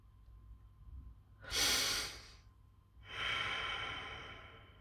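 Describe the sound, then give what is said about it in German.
A slow, deep breath: two soft, airy swells of breathing, each rising and fading gently over a faint low hum. “atme nochmal tief durch.”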